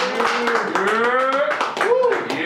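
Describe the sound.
Audience applause welcoming guests onto a stage at a live event, many quick claps blending into a dense patter, with voices sounding over it.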